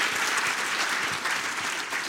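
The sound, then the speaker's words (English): An audience applauds during a talk, honoring a mother's 90th birthday: a thick, unbroken wash of many hands clapping at an even, sustained level from start to finish. “that's worth a round of applause”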